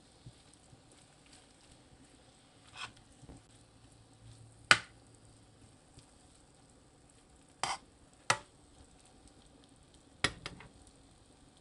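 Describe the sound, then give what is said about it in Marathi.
Vegetables seasoned with salt are sautéed and stirred in a pan: a faint, soft sizzle runs underneath while a few sharp scrapes and knocks of the spoon against the pan break through at irregular moments, with no talking. “पुन्हा एकदा व्यवस्थित वरखाली भाजी परतून घेऊया।”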